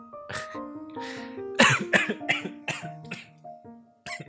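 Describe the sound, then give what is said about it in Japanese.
Sudden choking coughs: a rapid series of harsh, breathy bursts of uneven strength, loudest in the middle, over a faint steady tonal background. “ちょっと急にむせた”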